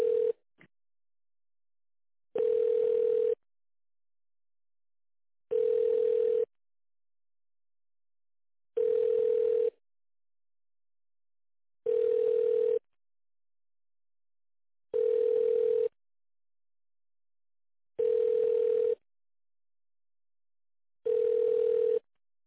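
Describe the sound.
Telephone ringback tone heard while a call is being transferred and connected: seven long, evenly spaced electronic beeps at a steady mid pitch, each lasting about a second, separated by silence.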